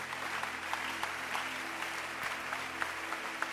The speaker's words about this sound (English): Keep clapping for them.